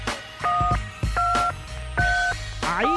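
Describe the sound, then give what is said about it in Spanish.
A mobile phone being dialled, with four clear dual-tone keypad beeps. They come at a steady, evenly spaced pace, with soft clicks and a low hum underneath. “Voy a coger el teléfono móvil. Aquí estamos, cacho de pepino, niño, que me lo ha vendido el Mario. Mira, aquí estamos marcando.”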